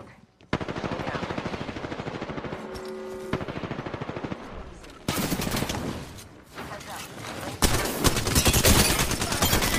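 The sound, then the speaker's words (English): Rapid automatic gunfire from a firefight in the video game Apex Legends, sustained dense bursts that continue almost without pause and grow louder in steps toward the end. “Making contact with enemy. Shots on me. Getting shot at.”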